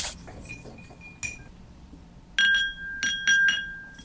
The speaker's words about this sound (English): And then we'll be taking all of our ingredients and chilling and diluting them by stirring over ice, which I'm going to do now.